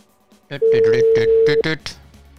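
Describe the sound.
An electronic telephone ring tone sounds as a single steady tone lasting about a second, while voices talk over it.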